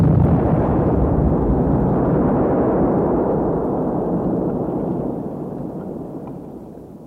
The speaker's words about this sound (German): Janek hat seine Bombe geworfen. Es ist erreicht.